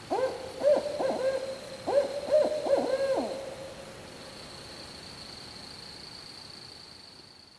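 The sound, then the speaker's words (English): A barred owl in Maryland gives a series of deep, rounded hoots in a quick rhythmic phrase, each note sliding slightly downward. A faint, steady hiss fills the quieter second half. “The barred owl is very common here in Maryland. So the barred owl sound kind of sounds like, who cooks for you? Who cooks for you?”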